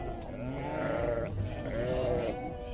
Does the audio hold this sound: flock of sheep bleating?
yes